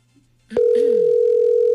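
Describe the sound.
A telephone tone sounds on a call that goes unanswered. After a brief click it holds one loud, steady mid-pitched tone on its own.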